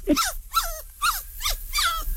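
A small dog growls at a doctor's visit in five short, whiny bursts, each sliding downward in pitch, evenly spaced and fairly loud.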